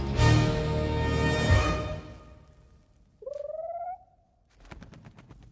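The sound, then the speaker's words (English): A small pigeon gives one short cooing call after a loud, sustained burst of rapid gunfire, and a faint rattling sequence follows. “They all unleash their weapons, only to find a small pigeon standing before them.”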